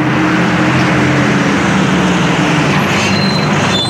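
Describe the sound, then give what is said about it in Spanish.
A city bus driving through Gijón: loud, steady engine and road rumble with a constant hiss that continues evenly without breaks. “Hoy por Hoy Gijón, que comienza, por cierto, subido en el medio de transporte que es más económico, que ensucia menos, que es más cómodo. Sí, señor, sí, señora, el autobús.”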